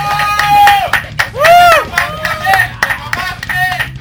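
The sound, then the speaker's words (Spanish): Applause from a small group: loud clapping with whoops and shouted voices rising over it, in bursts that swell and drop across four seconds. “¡Un aplauso!”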